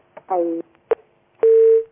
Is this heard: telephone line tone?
yes